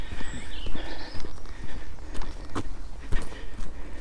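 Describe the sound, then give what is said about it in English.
Footsteps walking up a road that turns into a track, a steady rhythm of firm, fairly loud treads with a slight clopping quality, continuing without talk. “And I'm walking up a road which should turn into a track. Yes, it does.”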